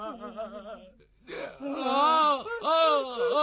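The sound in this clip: A person cries, with a quieter whimpering sob giving way after a short pause to loud, drawn-out wailing sobs that waver and rise and fall in pitch.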